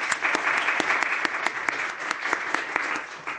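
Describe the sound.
Audience applause for a doctor introduced as a speaker: dense, steady clapping throughout at moderate loudness, with sharp individual claps standing out.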